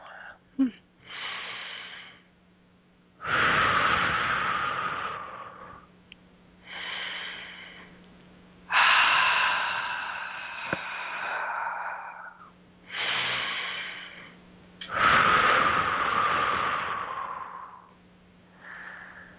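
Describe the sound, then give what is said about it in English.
Slow, deep breaths taken during a guided meditation: several long, airy inhales and exhales in alternation, fairly loud, with short silent pauses between them and no talking. “a couple nice deep breaths.”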